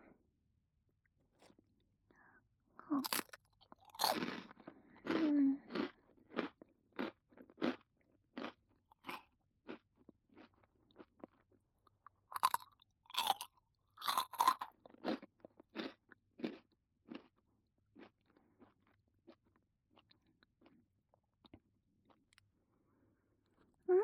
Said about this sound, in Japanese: 先生ね、このおせんべい好きなんだ。